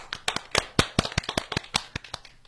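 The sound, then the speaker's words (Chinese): Audience applause welcomes the parents: a small, quiet patter of individual claps with uneven spacing, each one sharp and distinct. “来，我们掌声欢迎我们的家长。”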